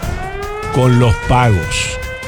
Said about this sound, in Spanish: yo hablo con la sirena puesta, la bajo un poquito.